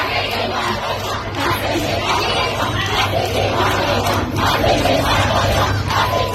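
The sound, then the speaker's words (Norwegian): Female students in Shiraz, Iran, chant together at the secret police, demanding they leave. It is a loud, continuous crowd roar of many voices, rising and falling steadily over a low background hum. “Dette er lyden av kvinnelige studenter i den iranske byen Shiraz som ber det hemmelige politiet ryke og reise.”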